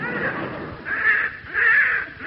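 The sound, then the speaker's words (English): Harsh cawing from a young crow with an injured leg: a few rasping calls that swell and fade in loudness, moderately loud, with no talk. “it's a young crow that Alfie spotted”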